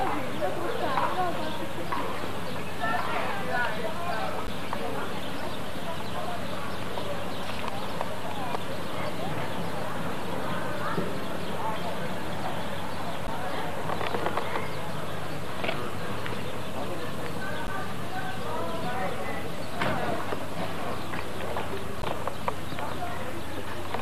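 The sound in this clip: Horse hooves clip-clopping in a steady, busy clatter that runs throughout, under continuous conversation.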